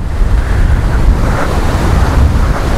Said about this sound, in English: So I'm just interested to see, because this water moves about a little bit. Down here, there is a waterfall.